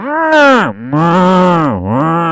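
Cattle mooing: a few long, low, drawn-out calls with deep harmonic tone, each dipping in pitch before the next begins, loud and with no talk.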